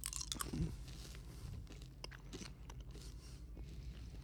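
Faint, crunchy chewing of a melon berry flavored item, with soft irregular bites and grinding that continue without talk.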